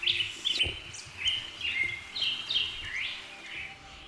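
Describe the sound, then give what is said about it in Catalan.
A bird chirps in a quick series of short, high tweets and brief trills, repeating many times at a fairly steady pace, soft but clear over a quiet background. “El dia següent van seguir el rastre de poció i van descobrir que era un ocell”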